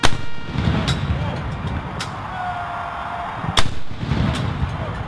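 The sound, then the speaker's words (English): Rifle volleys of a 21-gun salute at a funeral service ring out as a few sharp, loud cracks spaced irregularly, each with a brief decay into quiet background. “As a sedative, Taps was played, followed by a 21-gun salute.”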